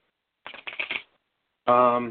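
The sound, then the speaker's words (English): Playing cards shuffled in quick riffling bursts, a run of four crisp fluttering pulses, followed after a pause by a short voiced sound. “I haven't even flipped the cards yet. I'm about to.”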